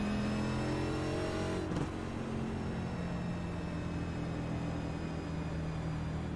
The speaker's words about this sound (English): The engine still seems pretty healthy too. This car might actually still be competitive.